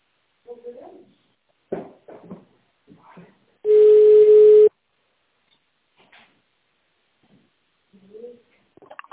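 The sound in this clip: A single steady telephone line tone sounds for about one second on a company's automated phone line while an extension is dialed. Short bursts of voice come before and after it.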